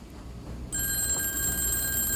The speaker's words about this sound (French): un appel retentit dans la pièce secrète de la bibliothèque.